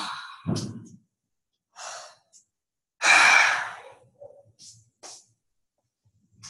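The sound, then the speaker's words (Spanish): Breaths out during a guided relaxation exercise: a few soft sighing exhales, with one long, fuller breath out in the middle and quieter short breaths around it. No speech. “Inhala, tensa, tensa, tensa, tensa tu cuerpo y exhala.”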